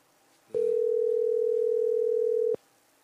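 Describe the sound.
One long ringback tone on an unanswered phone call being redialled, a steady, even hum of about two seconds, alone against a quiet background.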